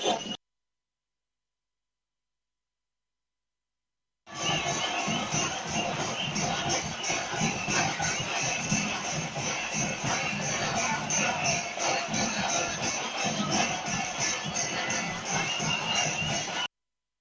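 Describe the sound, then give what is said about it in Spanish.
A large street march crowd with batucada groups in Quintero makes a dense, steady roar that starts abruptly after a few seconds of silence and stays loud and continuous. “pero ya llegaron las batucadas, llegaron los camioneros y se está haciendo una marcha por la calle que está frente a la plaza. Hay caleta de gente y hay mucha gente.”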